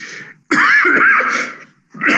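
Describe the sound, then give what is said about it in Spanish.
Harsh, raspy coughing and throat clearing from a person reading a weather forecast: a few loud bursts, the middle one long and rough, with brief pauses between them. “Perdón por la tos.”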